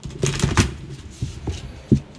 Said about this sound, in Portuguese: Esse embaralhar profissional aqui.